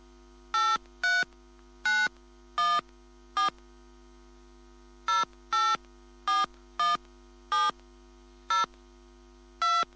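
Telephone keypad tones as a PIN is entered: many short, even beeps in two groups separated by a brief pause, over a low steady hum, with no voices.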